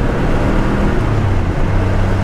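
Car engine running, an original high-mileage motor in good health, heard as a steady low rumbling drone while the car cruises at low RPM, with no talk over it.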